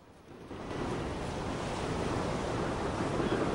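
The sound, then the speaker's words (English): The sea pounds against the shore while a raging wind blows, a broad, continuous roar that swells in after a quieter start and then stays loud and turbulent. “The sea pounds against the shore and the wind rages.”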